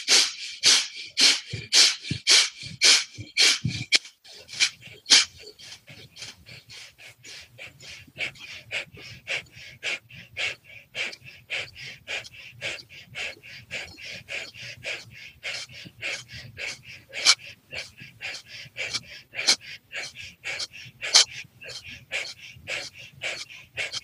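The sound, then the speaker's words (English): Forceful rhythmic nose breaths during a breathing exercise: a few strong, sharp sniffs at the start, then many quicker, softer pumping breaths in a steady run, with a low hum underneath. “We're going back to that nose breath. Here we go. 3, 2, 1.”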